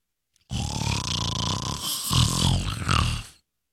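Rough snoring from a sleeping woman: a loud, rasping, throaty drone that lasts about three seconds without a break and swells a little toward the end.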